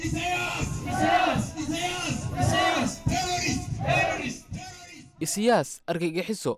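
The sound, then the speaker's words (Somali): Eritrean refugee protesters shout slogans in Addis Ababa, outside the African Union buildings, denouncing Eritrea's president. A loud crowd chants in rhythmic bursts, then a single voice speaks briefly. “codadkaasi waxay qayb ka ahaayeen ereyada ay ku qaylinayeen dadka bannaanbaxaya iyaga oo sitay boorar ay ku qoran yihiin ereyo ay ku cambaaraynayaan madaxweynaha dalka eritriya asiyas”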